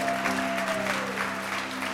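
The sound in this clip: A church audience applauding new members, with dense, steady, loud clapping throughout over a low sustained tone.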